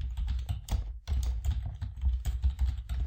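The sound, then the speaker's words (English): Fast typing on a computer keyboard while entering a search term, a dense, steady stream of clicks and clacks with one brief pause near the start. “But let's type in another one.”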